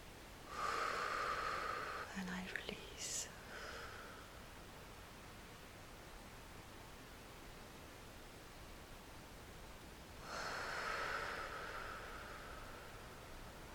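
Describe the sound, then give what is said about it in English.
Slow, soft breaths drawn in: two long, airy inhalations separated by a quiet pause, each hushed and gentle. “I breathe in.”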